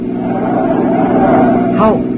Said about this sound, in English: Can't this car go any faster than this?